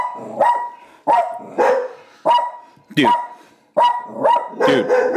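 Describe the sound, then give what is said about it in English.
Two pet dogs bark at an Amazon delivery arriving at the house, a run of loud, sharp barks in quick repeated bursts, some with a yelping edge, continuing steadily throughout. “someone's delivering Amazon. My dogs are gonna go crazy. My dogs are gonna go crazy.”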